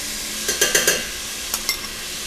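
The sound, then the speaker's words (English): Minced garlic sizzles with slightly browned beef in a pan for a Korean dish: a steady frying hiss broken by a few sharp scraping stirs, a cluster early and a couple more later. “The beef is slightly brown, so I'll add some minced garlic.”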